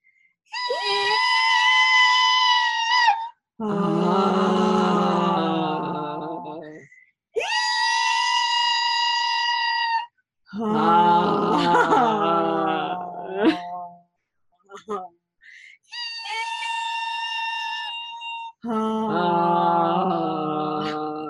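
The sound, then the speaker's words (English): Voices chant mantras, alternating a very high-pitched sustained "ee" with a very low-pitched droning "ah", about three rounds of each, every held tone lasting a few seconds with brief gaps between them. “So the first mantra is a very high-pitched E, and the second mantra is a very low-pitched ah.”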